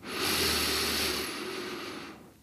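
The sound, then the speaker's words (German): A slow inhale through the nose during a guided breathing exercise: one soft, airy rush of breath lasting about two seconds, steady and fairly quiet, tapering off at the end with no talk over it. “Durch die Nase einatmen”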